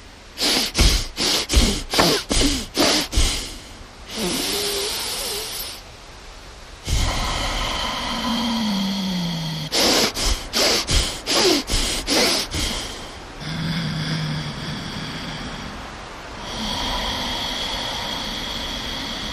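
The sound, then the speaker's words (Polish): Breathing in and out through the nose during a connected-breath exercise. Runs of quick, forceful sniffing breaths come in short rhythmic bursts and alternate with long, steady, airy breaths. The breathing is loud and there is no talk. “Cały czas oddychamy nosem.”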